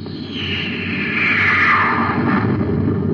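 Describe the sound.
A torpedo fires from the rear of a spaceship during a space battle among planetoids, a swelling, rushing whoosh over a low rumble that builds and holds for about three seconds with no voices.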